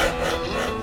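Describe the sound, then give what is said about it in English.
A rasp shapes a wooden cricket bat, producing a continuous, dry, gritty scraping of metal teeth across wood. It is fairly loud and unbroken for the brief moment heard. “That's the sound of a cricket bat being shaped.”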